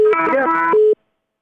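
A telephone call cutting off: a steady electronic tone and garbled line sound run for under a second, then stop abruptly into silence.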